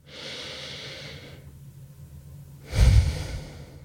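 A deep breath taken during a calming pause: a long, airy inhale, a short silence, then a heavier, louder exhale with a low, rough rush of air. No voices are heard.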